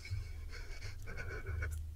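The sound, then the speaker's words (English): Shallow, quick breathing, faint and steady throughout, over a low continuous hum. “What is that shallow breath?”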